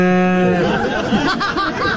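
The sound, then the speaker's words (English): A cow moos during a wedding ceremony: a sustained, harmonic low at the start, followed by a mix of voices. “So if you can manage to make it through the day without a cow objecting to your wedding, you're doing okay.”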